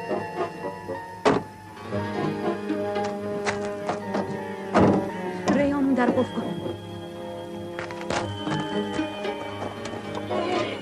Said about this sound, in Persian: زن و دختر بچه سوار ماشین میشن.